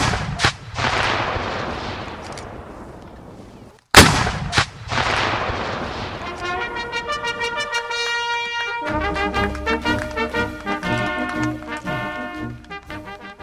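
Cannons fire at a Civil War reenactment of the Battle of Chickamauga, with two loud, deep booms, each trailing off into a long rolling rumble.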